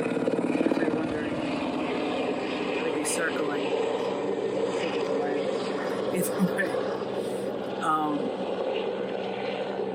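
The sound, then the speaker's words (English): Helicopter flying overhead, a steady droning rotor and engine hum that continues unbroken and evenly loud for the whole stretch, with speech faintly mixed in. “Sorry about the helicopter. It's not mine.”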